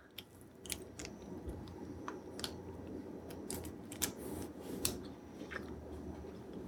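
Chewing on an almond and date snack: a few crisp, quiet crunches and bites spread over several seconds, with no talking.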